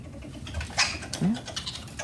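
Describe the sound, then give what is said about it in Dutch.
A cornered stone marten gives a couple of brief, sharp squeaky calls, one high and scratchy and one lower rising squeal, faint over a quiet, noisy background. “die zei, dat dacht Johan de Weert ook, het is inderdaad een steenmarter. Wel in het nauw.”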